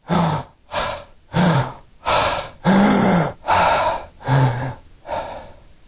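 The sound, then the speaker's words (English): A person imitating a dying patient's breathing of apnea and catch-up breaths: a rapid, evenly spaced series of loud, raspy gasping breaths, each a harsh rush of air, with no talk. “those very specific breathing patterns where the patient has apnea and then has what I would call catch-up breaths. You need to be able to demonstrate them with apnea followed by”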